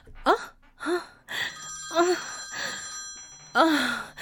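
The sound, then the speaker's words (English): A phone rings with a steady electronic tone that holds for a couple of seconds, while breathy sighs and gasps come and go around it. “Wait, that's my phone.”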